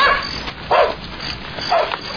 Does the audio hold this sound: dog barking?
yes